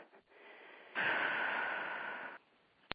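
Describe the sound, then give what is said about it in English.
A big, deep breath: a long, steady, breathy rush lasting about a second and a half, then a sharp click at the end. “Just take one big, deep breath for me, if you can.”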